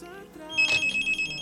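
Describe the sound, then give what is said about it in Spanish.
A telephone rings during an outgoing call: a short pulsed, high-pitched ringing lasts about a second at moderate level, preceded by faint steady tones. “Estamos tratando de realizar la llamada en estos momentos.”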